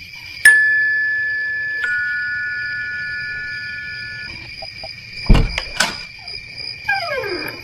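A doorbell chime rings at the front door of a British-style hill mansion: two bright tones, each fading slowly, with quiet background between.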